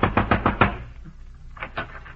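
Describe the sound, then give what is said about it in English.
Heavy pounding on a door at night, a rapid burst of about five hard, thudding blows, followed after a pause by a couple of softer knocks. “a neighbor crawled down the streets and pounded on the door.”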